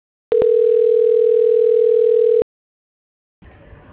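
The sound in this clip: A steady telephone tone plays during a call transfer. It holds one unbroken pitch for about two seconds after a couple of brief clicks at the start, then cuts off into silence before a faint stretch of noise.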